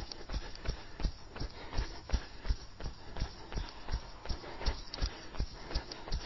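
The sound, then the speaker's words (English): Quick feet patter in a steady, even rhythm while someone jogs in place with high knees on the balls of the feet, each footfall giving a soft thud in a long regular series. “High knees, thighs up. Knees up, thighs parallel to the ground, tips of the toes, balls of the feet. And jog.”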